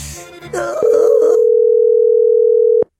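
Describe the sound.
A telephone dial tone follows a dropped call: one steady, unbroken tone for about two seconds that stops abruptly. Brief talk and noise come just before it.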